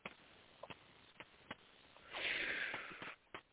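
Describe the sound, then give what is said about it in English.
A deep, spontaneous inhalation, a breathy rush of air lasting about a second, follows a few faint clicks and is heard alone without talk. “I just took a deep breath. So spontaneously, it came in deep.”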